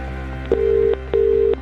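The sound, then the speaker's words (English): Ringback tone of an outgoing phone call placed for a cash giveaway: two long, steady mid-pitched rings separated by a short pause, preceded by a brief click, with no voices. “We're making our next call right now. There is a significant amount of cash up for grabs, so if you've entered since Ciarán won, check your phone, answer within five rings and tell us today's winning amount.”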